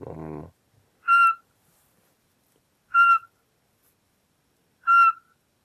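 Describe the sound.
Recorded call of a Eurasian pygmy owl played from a device: three clear, high whistled notes, evenly spaced about two seconds apart, following a brief voice at the start.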